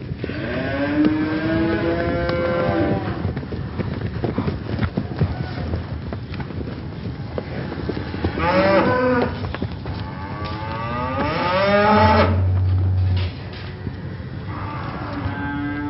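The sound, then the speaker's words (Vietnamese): A cattle herd stampedes, hooves pounding in a continuous rumble as several loud, drawn-out moos rise over the din. “tiếng vó nệm xuống đất và tiếng kêu bi thảm của lũ bò hòa trộn làm một, váng trời dậy đất đổ dồn về phía chúng tôi”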